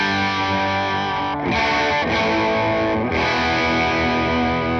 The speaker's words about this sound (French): Et micro aigu en full humbucker.